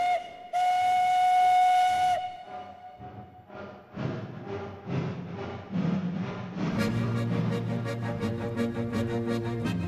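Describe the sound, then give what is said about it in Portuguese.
A steam train whistle blows one long, steady tone as the train departs, then the locomotive starts chuffing in rhythmic bursts that grow denser and louder. “¡Atención, pasajeros! ¡El comboio va a partir!”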